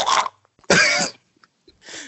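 A person coughs and clears their throat in three rough bursts separated by short silent gaps; the middle burst is the loudest and longest.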